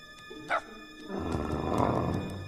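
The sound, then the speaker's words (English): A massive dog growls at a tiny dog, a low, rough rumbling that swells and carries on to the end, after a short sharp sound near the start. “Massive Henry growls at tiny Georgia.”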